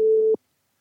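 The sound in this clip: A brief steady telephone tone sounds as a phone is dialed, holding one even pitch for about a third of a second before ending in a short click.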